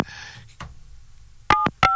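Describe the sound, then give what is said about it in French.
Touch-tone beeps of a telephone number being dialed: a few short, steady dual-pitched tones in quick succession after some fainter noise. “On va appeler ici le numéro de téléphone.”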